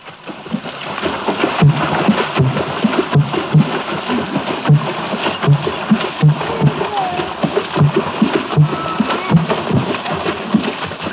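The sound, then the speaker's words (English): Gabon water drumming: hands beat the water surface in a steady, repeating rhythm of deep, hollow thumps with splashing that carries on throughout. “that bass effect, in the Gabun water drumming offers a parallel to the trombone of primitive jazz”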